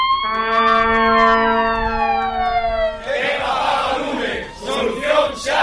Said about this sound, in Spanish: Este es el sonido de un pequeño vídeo de los bomberos de Vigo que siguen pidiendo más efectivos